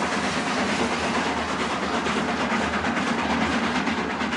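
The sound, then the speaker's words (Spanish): Steady rumble and hiss of a train approaching a rural village, a dense continuous clatter holding at an even level from start to finish with no voices. “tren se aproxima a una población rural.”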